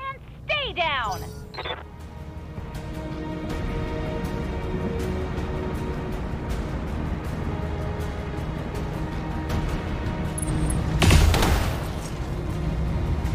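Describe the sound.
Mech weapons all fired at once in a video game, a sweeping whine at the start giving way to a dense, sustained rumble of fire with a sharp blast near the end, with talk over it.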